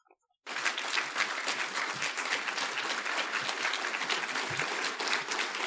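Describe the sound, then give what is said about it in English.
An audience gives a standing ovation, with loud applause bursting in after a moment of near silence and holding as a dense, steady roar of clapping. “There's people in the audience standing up, giving this guy a standing ovation and giving him the Heil Hitler salute.”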